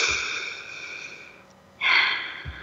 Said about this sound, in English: Listeners, take a moment and breathe that in.